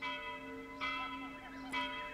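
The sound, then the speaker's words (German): An old village church bell tolls, its bright sustained overtones ringing on between a few fresh strikes about a second apart, with no talk. “Unsere alte Glocke.”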